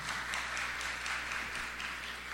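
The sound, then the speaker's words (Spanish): Applause from an audience at a ceremony honoring military officers, a dense, steady wash of clapping that holds at an even level throughout without pause. “un aplauso para el doctor”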